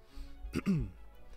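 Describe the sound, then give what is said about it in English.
A narrator's voice acts out a character clearing his throat during a tabletop role-playing story. It is a short, faint rasp followed by a low voiced hum, lasting under a second with quiet around it. “He clears his throat.”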